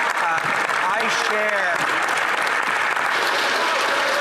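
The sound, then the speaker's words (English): Applause fills a parliamentary chamber: dense, steady clapping throughout, with voices cheering over it in the first couple of seconds. “I've never had that much applause, Mr. Speaker, in the House before.”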